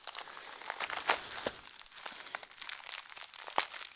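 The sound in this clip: Paper rips and crinkles as a magazine package is torn open along its perforation, a fairly quiet, continuous tearing broken by a few sharper crackling snaps.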